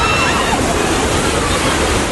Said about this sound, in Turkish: Ant dağlarından gelen çamur, su ve moloz seli kentin doğu semtlerini vurdu.